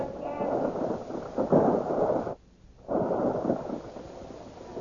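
Roaring, rumbling barrage of weapons fire in a radio drama battle. A dense, continuous blast of noise drops out briefly midway, then resumes at full force.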